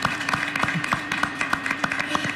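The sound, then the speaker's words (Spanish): An audience applauds guests on a summer course panel with distinct, separate claps in a loose, fairly steady rhythm over a faint low hum. “Un aplauso para todos ellos porque enseguida vamos a desarrollar sus ideas.”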